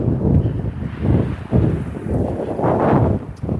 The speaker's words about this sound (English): Listen to the wind blow.